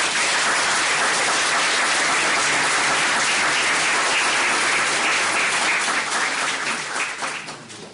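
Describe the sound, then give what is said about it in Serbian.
Sustained audience applause at a literary evening, a dense, even wash of many hands clapping at full strength that holds steady before thinning and fading over the last second or two. “U tom smislu ja bih predložio čak i aplauz za gospodina Perkovića.”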